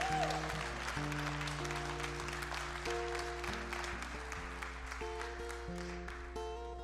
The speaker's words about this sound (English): That's all right, you can clap. Go ahead.